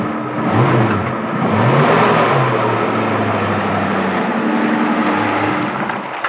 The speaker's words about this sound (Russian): Жан-Луи опускает верх машины и разворачивается.